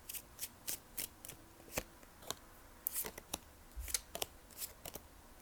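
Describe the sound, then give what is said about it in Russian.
Cards being drawn from a deck during a spiritual card reading: many short, crisp snaps and papery rustles in an irregular rhythm, fairly faint, with no talk. “Я достану еще несколько карт. И и еще отдельно я хочу достать карты, просто вот послание вам от вашей духовной команды.”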